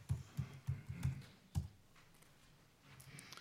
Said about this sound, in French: Voilà, si je tape boucher, j'ai pris boucher un petit peu au hasard quand même.